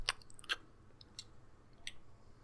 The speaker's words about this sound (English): he raises the carrot to his mouth and takes a significantly large crunch out of it